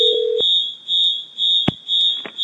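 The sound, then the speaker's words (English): A fire alarm going off with a piercing, high-pitched electronic beep that repeats in short, evenly spaced pulses, plus a few sharp clicks between tones. “how do you turn off the fire alarm?”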